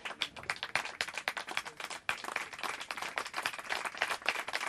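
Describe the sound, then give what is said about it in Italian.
An audience applauds in advance as soprano singers are introduced at a concert, a dense, steady wash of clapping that holds throughout, dips briefly near the middle, then resumes just as strongly. “prendetevi questo bel applauso così in anticipo”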